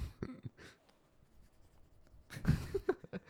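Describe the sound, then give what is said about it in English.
A pen scratches across paper in a few faint, irregular strokes, short scratchy bursts with quiet gaps between them. “Okay, I'll write that down.”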